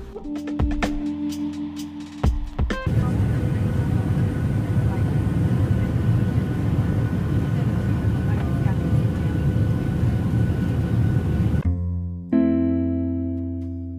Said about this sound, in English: There is nothing like the calm I find in flight, suspended in midair. The soothing backdrop of flowing air that maintains cabin